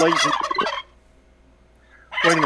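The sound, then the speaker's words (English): A turkey gobbles in two loud bursts of rapid, warbling calls, separated by a short near-silent gap. “That sound is a... That's a turkey.”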